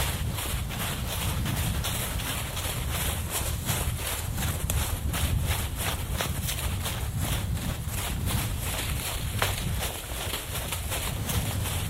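A horse trots uphill over fallen leaves, its hooves beating in a steady, even rhythm. A constant rustle and low rumble continue underneath for the whole stretch.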